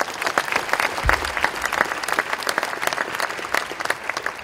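An audience applauds to welcome two panelists with loud, dense, sustained clapping, an even rush of hand claps throughout.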